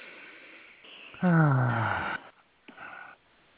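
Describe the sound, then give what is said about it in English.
A group draws a big deep breath together at the start of a spoken prayer. It ends in a voiced, sighing exhale that slides downward in pitch, with softer breathing before and after. “Let's all close our eyes and take a big, deep breath.”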